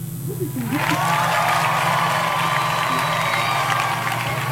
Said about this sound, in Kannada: ಸರಿಯಾದ ಉತ್ತರವನ್ನು ನೀಡಿದ ನಮ್ಮೆಲ್ಲ ಕೇಳುಗರಿಗೆ ಪ್ರೀತಿಯ ಚಪ್ಪಾಳೆ.